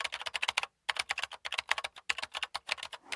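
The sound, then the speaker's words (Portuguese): Someone types on a computer keyboard, sending out quick runs of crisp, clicking keystrokes. There is one short pause early on, then steady bursts of typing. “E a resposta correta é... alguém a escrever no teclado de um computador.”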